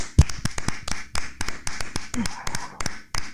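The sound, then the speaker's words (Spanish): A single pair of hands claps for a neighbour who is a nurse, making many sharp, distinct claps in a steady, fairly quick rhythm with no other sound around them. “Yo ya sé que no te gusta, pero te tengo que aplaudir desde aquí”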